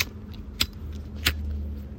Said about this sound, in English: I'm actually lighting a cigarette now.